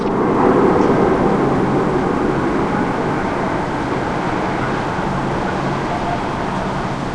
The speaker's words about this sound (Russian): Вот, похоже, еще звук реактивного двигателя слышится в небе.